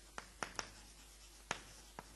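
Handwriting during a lecture as a word is written out, heard as five short, faint scratching strokes spaced unevenly with quiet gaps between them.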